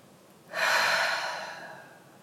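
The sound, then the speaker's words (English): A single deep breath out during a guided healing meditation, a soft, breathy rush that starts suddenly and fades gradually over about a second and a half, heard alone without talk. “take a deep breath out”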